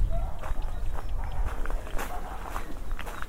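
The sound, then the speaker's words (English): Footsteps crunch across gravel as someone walks through gates toward a churchyard. The steps form a steady, continuous rhythm of many gritty crunches over a low rumble, with no talking. “Just gonna walk through these gates and across the gravel”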